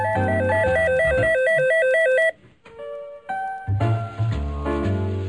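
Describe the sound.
A telephone rings with an electronic ringtone: a bright two-tone melodic pattern repeats over a bass-heavy backing, breaks off briefly into quieter tones, then resumes loudly.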